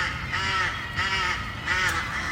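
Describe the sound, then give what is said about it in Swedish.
A bird calls from its nest among a group of several noisy birds: harsh, raspy caws rise in about three louder bursts over a steady bed of overlapping calls. “Där ser jag en som ligger i sitt bo och liksom fladdrar. Och jag tror att det är den som låter också.”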